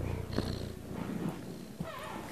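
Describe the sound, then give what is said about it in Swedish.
A young cat purrs while grooming itself, a soft, continuous rumbling throb that keeps an even rhythm throughout, with no voices over it. “Och så spinner du så skönt. Ja, så spinner du.”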